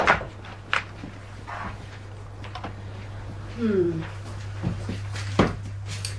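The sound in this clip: A store room door is opened and held open, giving a few dull wooden knocks and a short creak that drops in pitch. A steady low hum runs underneath.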